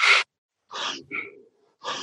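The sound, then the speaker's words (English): Fast rapid breathing from a breathing exercise: a few quick, sharp, airy breaths in and out with short gaps between them, forceful and alone with no talk. “the people who first do it, sometimes this will invoke panic in their bodies because they'll be breathing fast. It sounds like this.”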